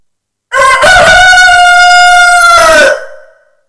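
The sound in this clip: A rooster crows once in a long, loud, sustained call with a strong harmonic tone that holds steady and then tapers off at the end.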